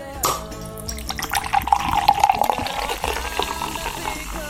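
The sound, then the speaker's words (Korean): Cola poured into a glass: a fizzy, splashing liquid stream that runs almost the whole clip, building steadily and staying moderately loud with a bright, bubbling texture. “가요광장 놀러온 우리 손님들께 시원한 콜라, 제로콜라 원하시면 제로콜라. 취향에 맞춰 대접한 음료와 함께 토크해보는 시간.”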